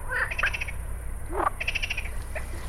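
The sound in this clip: Frog croaking at a pond, a few short pulsed, rattling calls in quick bursts, fairly faint over a low steady background.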